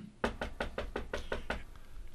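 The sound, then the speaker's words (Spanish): A rapid, evenly spaced series of sharp knocks on a door, each one crisp and loud, rapping out in a steady rhythm before fading into quiet background hiss. “Creo que están tocando la puerta.”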